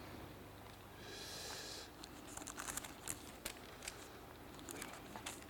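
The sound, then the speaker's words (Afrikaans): Pages of a Heidelberg Catechism book being opened and handled: a soft, sustained papery rustle, then a few faint, crisp ticks and crinkles, quiet and without any talk. “Nou gaan ons die Heidelbergse Katekismus oopmaak.”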